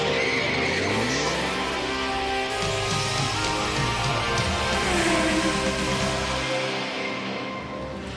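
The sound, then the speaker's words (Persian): Engine of a new Hyundai Sonata being driven: a loud, continuous drone whose pitch climbs several times as the car accelerates. “خواهیم دید که هیوندای سوناتای جدید همچنان دلپذیره یا نه. پس بریم با هم برونیم.”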